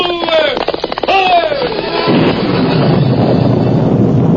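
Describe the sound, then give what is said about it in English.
A radio-drama sound effect of a stormy night of wind and rain: loud, whistling gusts that glide in pitch give way to a dense, steady rushing roar. “it was a night of wind, rain, and thunder”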